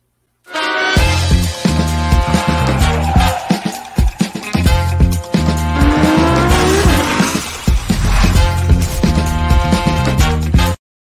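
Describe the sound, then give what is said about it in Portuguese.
Radio jingle built from racing car sounds in a Formula 1 setting: loud music layered with roaring engines and squealing tires, with a rising pitched sweep midway, running continuously for about ten seconds. “Já tá tudo pronto. Então, roda a vinheta.”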